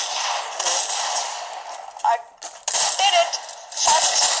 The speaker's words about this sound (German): Ja, Digga, wahrscheinlich bekommt er mich. Er hat auf meinen Fuß geschossen. Auf meinen Fuß.